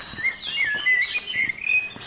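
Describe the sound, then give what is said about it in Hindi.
Birds chirp and tweet in a continuous run of short, high-pitched twittering calls, fairly clear and with no voices. “सोचिए ये चहचहाते हुए पक्षी”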